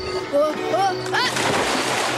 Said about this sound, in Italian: Trovano una barca, ma nel tentativo di salire Nemeček cade in acqua.